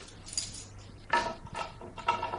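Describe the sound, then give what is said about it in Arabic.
A bunch of keys jangles as they are tried one after another in a door lock. The metallic rattles come in a few short, faint bursts with quiet gaps between them. “احسن طريقة اجرب المفاتيح اللي معايا، يمكن واحد ينفع ويفتح.”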